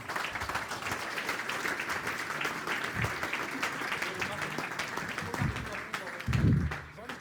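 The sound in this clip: Audience applause at an event with live musicians, many hands clapping continuously at a moderate level for several seconds while people talk over it, with a louder swell near the end.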